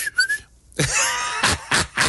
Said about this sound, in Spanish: Por favor, un chiflido allá para los de la comisión, gracias.